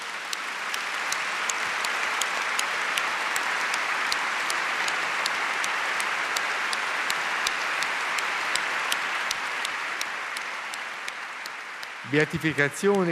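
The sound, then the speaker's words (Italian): Sustained audience applause fills the Basilica of San Giovanni Laterano, a dense, even wash of clapping with sharp individual claps, fading slightly before a voice begins speaking at the very end. “Il vostro applauso testimonia ancora una volta il bene che tutti gli vogliamo e il bene che egli ci ha fatto.”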